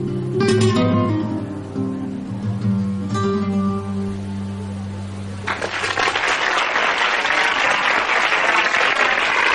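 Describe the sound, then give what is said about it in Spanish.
Audience applause in a restaurant for a live song, breaking out as the guitar-backed singing ends and continuing loud and dense, with a few sustained musical notes lingering underneath at first. “mientras el público aplaude la actuación.”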